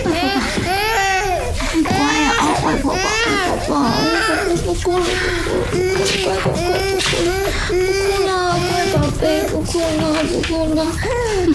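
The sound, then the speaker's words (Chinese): An infant cries and wails nonstop, a loud, high, strained cry with wavering pitch that rises and falls in repeated sobbing bursts, with no pause. “不哭了，乖宝贝，不哭了。”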